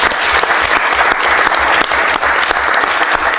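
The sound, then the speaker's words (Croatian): Government ministers applaud at a cabinet session in honour of the national football team, with loud, continuous, dense clapping and scattered sharper claps standing out throughout. “Evo, čestitke svima, ja mislim da reprezentacija zaslužuje jedan aplauz cijele vlade.”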